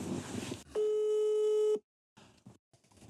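A telephone call rings out with one steady, buzzing ring tone of about a second. It comes after a short burst of noise and is followed by near silence.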